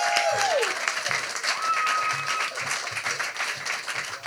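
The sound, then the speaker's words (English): Dense, steady applause from a theatre audience welcoming a performer to the stage, loud and continuous clapping with crowd noise throughout. “Welcome to the stage. Let's give it up for Tiana.”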